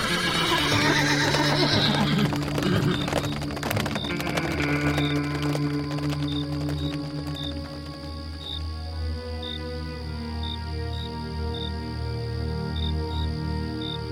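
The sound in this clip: Horses pulling a wagon at speed neigh, with a loud, shrill whinny at the start, then steady hoof clip-clop and a regular, faint chirping of crickets as the sound eases slightly.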